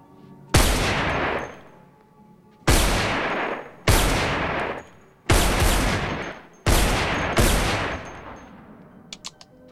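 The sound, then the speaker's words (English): Gunshots fired through a partition wall: several loud, sharp blasts spaced a second or two apart, each trailing off in a decaying rumble, with faint clicks at the very end. “Private investigator shoots a hole through the partition wall.”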